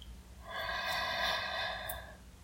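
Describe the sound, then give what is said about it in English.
One person draws a single long, deep breath in through the nose during a guided relaxation, a soft, airy inhale that swells and fades over about a second and a half, with no talk. “Just breathe with me. Breathe in.”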